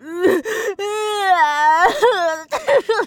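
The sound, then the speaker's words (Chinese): A voice imitates someone crying, with wailing, whimpering sobs that waver up and down in pitch in a few broken, loud bursts. “他刚才居然哭了，就像这样。”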